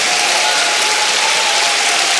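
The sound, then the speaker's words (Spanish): A church audience claps their hands in praise, a loud, dense and continuous burst of applause from many people that stays steady from start to finish. “Vamos, dele palmas al Señor por eso.”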